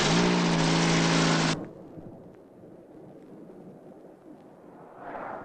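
A car driving off, heard as a low, fairly faint engine rumble that swells slightly near the end. Before it, a loud sustained tone cuts off abruptly.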